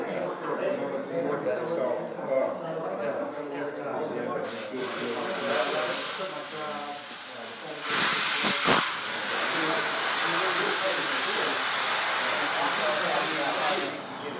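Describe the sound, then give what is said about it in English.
Dry sanding of a surface with a continuous harsh, hissing rasp that runs almost the whole time, growing louder partway through, while people talk over it. “why are you using a dry sand versus a wet sand? Well, we're using a dry sand so you can actually see what you're doing. Water covers up the imperfections”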